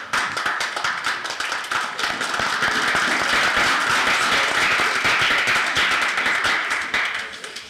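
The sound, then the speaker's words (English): Round of applause for students and their teachers: many hands clap in a dense, continuous patter that swells to a loud, steady level and then tapers off in the final moment. “round of applause is for all the students and for their teacher and teachers.”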